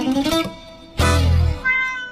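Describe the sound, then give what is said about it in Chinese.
Cat meows in a 2016 song: a few bright, harmonic mewing cries, each roughly half a second long, separated by short pauses. “从前面的一开始的喵叫到最后的一声喵叫，呈现出了猫自由灵动的那种状态”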